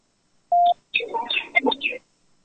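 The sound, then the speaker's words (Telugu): A telephone call comes in on a phone line: one short, steady electronic beep, then a brief stretch of a voice speaking. “మళ్ళీ call వస్తుంది, ఒక్క నిమిషం.”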